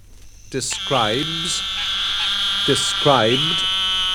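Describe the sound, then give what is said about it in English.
An eastern narrow-mouthed toad, Microhyla carolinensis, gives a long, high, nasal buzzing call that holds steady for several seconds, with two brief lower-pitched sounds overlapping it. “This is a call of the eastern narrow-mouthed toad, Microhyla carolinensis.”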